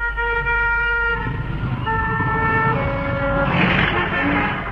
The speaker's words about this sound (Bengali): এই এত গাড়ি যাওয়া যাচ্ছে না তো।